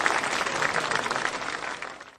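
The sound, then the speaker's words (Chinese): An audience applauds during a lesson as a teacher is invited up to recite. Dense, even clapping stays fairly steady, then tails off quickly at the very end. “我们掌声有请。”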